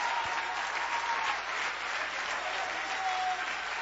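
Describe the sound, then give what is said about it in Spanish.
Church audience applauding during a sermon: dense, steady clapping that fills the whole clip at an even loudness, with no voices standing out. “Un aplauso a Cristo, que Él se lo merece.”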